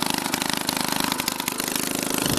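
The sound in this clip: Steady running of a Solex moped engine, a continuous buzzing drone with rapid, regular low pulsing that stays fairly loud and even throughout, with no other sounds.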